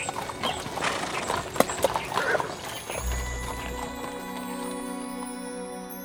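Horse hooves clip-clopping at a trot, with a run of crisp, fairly loud hoof beats over the first two seconds that then give way to quieter sustained tones.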